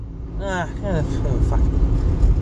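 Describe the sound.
Low, steady engine rumble from a car being driven, running underneath a talking voice for the whole stretch.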